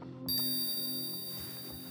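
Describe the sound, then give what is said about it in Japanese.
A bell rings out as a hypnosis cue: a single bright strike whose clear, high, sustained tone lingers and slowly fades over a soft low hum. “催眠ベルを聞くたびに全身が切なくなってくる。”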